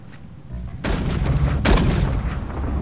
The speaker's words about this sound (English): heads into the Spartan apartment and fires his gun